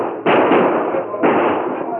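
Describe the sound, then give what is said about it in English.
Gunfire as outlaws open fire on cowhands beside a trail: two loud, sharp blasts, each trailing into a long, noisy roar that slowly fades. “when a band of outlaws swarmed out of a grove of trees beside the trail and opened fire on the cowhand.”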